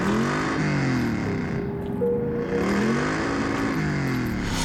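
A car drives up loudly at night with its high beams on, the engine droning and revving steadily, its pitch swelling and easing several times.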